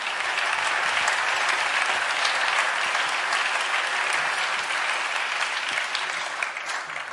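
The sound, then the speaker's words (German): A concert audience applauds the lighting crew with steady, dense clapping that stays loud throughout and eases off slightly near the end. “Und macht mal Lärm für das tolle Licht.”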